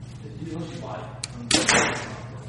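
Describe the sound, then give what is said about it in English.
An arrow is shot from a Prime compound bow at an archery shop, a single sharp thwack into a solid target followed by a brief fading rush, with a faint tick just before the impact. “I like the draw cycle on this Prime a lot. Let me shoot one more.”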